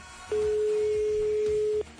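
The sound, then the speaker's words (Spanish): A single ringback tone on an outgoing phone call sounds as one steady, low-pitched electronic hum lasting about a second and a half, with a faint murmur before and after. “Segundo tono, vamos a ir incluso por el tercero.”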